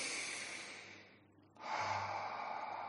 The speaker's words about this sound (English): Inhale, exhale.